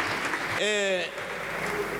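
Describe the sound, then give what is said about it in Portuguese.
Applause from a party's benches in a parliamentary chamber, dense steady clapping throughout with a voice rising briefly over it early on. “Aplausos da bancada do PSD.”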